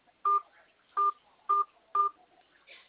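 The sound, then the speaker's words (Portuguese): Four DTMF keypad tones sound as a 4-digit PIN is entered on a phone keypad. The short, steady electronic beeps are clear and evenly spaced, roughly half a second apart. “Digite, por favor, a sua senha, aquela de 4 números. Pode começar.”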